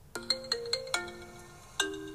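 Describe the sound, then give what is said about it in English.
A mobile phone rings with an incoming call from an unknown caller, playing a bright melodic ringtone of six chiming notes, five in quick succession and a final one after a short pause, each ringing on briefly. “At the hotel, Marvin is getting dressed when his phone rings with an unknown caller ID.”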